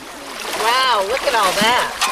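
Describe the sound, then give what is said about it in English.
People splashing water and sieving in a creek on a fossil-hunting field trip, voices exclaiming over the steady wash of water and splashes. “The people of every age on this field trip continue splashing and sieving. Every so often, another shout of joy or an amazed exclamation echoes off the steep creek banks.”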